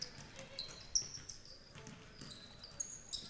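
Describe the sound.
Basketball dribbled on court during a girls' high school basketball game: a few soft, faint bounces spaced unevenly through a low crowd murmur.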